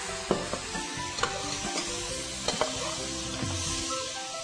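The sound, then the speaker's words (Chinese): Sizzling as sugar, salt, pepper, sesame oil and soy sauce go into still-hot oil in a pan with dried shrimp, the heat switched off. A steady hiss carries a few sharp clatters from stirring. “我们就把我们这个调味料呢放下去。这个调味料有什么呢？有糖、盐巴、胡椒粉、香油、酱油。好，好，你看还是听到这样一声哈。”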